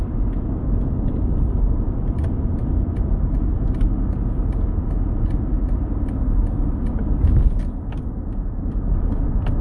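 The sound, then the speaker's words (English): A car driving on a road: a steady, loud engine and road rumble throughout, with a brief swell near the end and scattered small clicks. “I'm just driving home and you hear the driving.”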